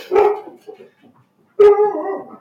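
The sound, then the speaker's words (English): Dogs barking: two loud barks separated by a pause of about a second, with faint whimpering sounds in between. “We got a special guest appearance from the dogs.”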